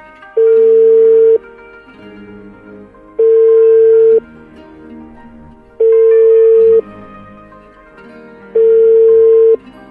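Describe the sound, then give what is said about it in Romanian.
Ringback tone of an outgoing phone call that goes unanswered: four steady, evenly spaced tones, each about a second long, separated by quiet gaps with a faint low hum. “Abonatul Vodafone nu răspunde. Vă rugăm să reveniți. Da, ați intuit bine. Am încercat din nou să dăm de domnul primar. Degeaba însă.”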